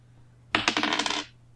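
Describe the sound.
Dice are rolled during a tabletop role-playing game, making a short clatter of many quick hard taps that lasts under a second before quiet returns. No voices are heard.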